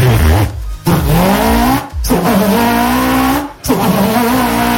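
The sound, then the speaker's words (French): A small motorbike engine, shown off as a rival to a moped, revs with a loud, buzzing, harmonic drone that runs almost continuously and breaks off in three short dips. “on a trouvé une concurrente à la mobilette de Toff. C'est la moto d'Arnaud apparemment.”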